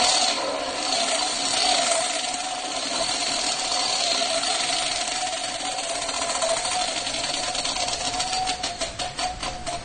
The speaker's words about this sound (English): One more time, I'm going to spin it. One more. Final time of the night. I'm spinning the Wheel of Crystal.